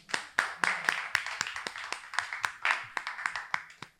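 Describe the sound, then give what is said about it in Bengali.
Scattered clapping from a small audience for a quiz team: many sharp, separate hand claps in an uneven rhythm, fairly faint, with short gaps between bursts. “Team number টুর জন্য হাততালি হোক।”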